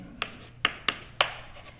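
Four short, crisp taps and scrapes as an equation is written on a board during a physics lecture, over a faint steady hum.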